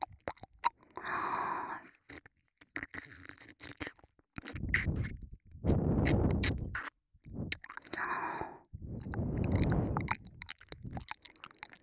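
Wet mouth sounds of an ear being licked: irregular bursts of soft smacking, slurping and sucking, with short silent gaps between them.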